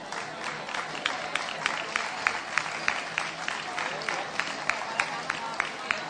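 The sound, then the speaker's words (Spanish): Audience applause at an awards event for a local fair's poster contest, honoring honorable-mention entries: steady, fairly quiet clapping with many crisp individual claps standing out at a regular pace. “así que vamos a pedir también un aplauso para ello.”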